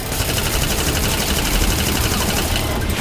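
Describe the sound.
Rapid M16 rifle fire aimed at a fast-moving creature: a loud, dense, unbroken stream of cracking shots lasting the whole three seconds, with no pauses and no talk over it.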